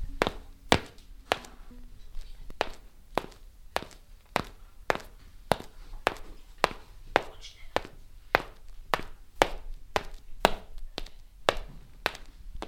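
Footsteps of someone walking: many evenly spaced, hard, knocking taps at a steady walking pace that continue throughout, with no talk.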